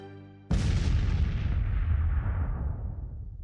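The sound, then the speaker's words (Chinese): A hand grenade explodes and destroys an enemy firing point. After a held tone, a single loud blast hits suddenly and then rumbles on, fading slowly for about three seconds. “轰！敌人的火力点塌了半边，黄继光晕倒了。”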